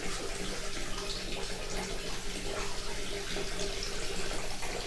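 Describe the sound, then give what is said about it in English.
Water runs steadily from a tap to wet someone's hair, a loud, continuous rushing hiss with no break and no speech. “I just want to wet your hair.”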